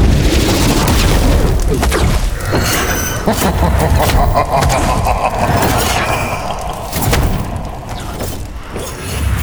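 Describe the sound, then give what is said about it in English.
A fireball spell blasting out as a sound effect in a fantasy audio drama: a loud, deep, roaring boom with crackling texture that rumbles on steadily for the whole stretch. “And as the fire burned within my heart, a tongue of flame sprung forth and released a ball of fire towards Vilram.”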